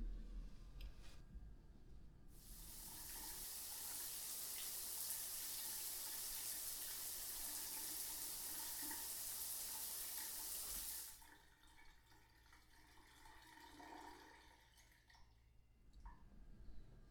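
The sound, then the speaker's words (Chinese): Water running in a shower, a steady, even rush that starts abruptly, holds for about nine seconds and then cuts off, leaving only quiet background noise on either side. “先去洗澡，洗完澡再玩。”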